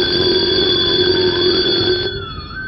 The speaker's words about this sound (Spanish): sonó el despertador